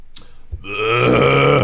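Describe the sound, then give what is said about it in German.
A person burps once: a long, loud, low croaking belch lasting about a second, after a few brief faint noises. “Oh, ich muss die ganze Zeit aufstoßen.”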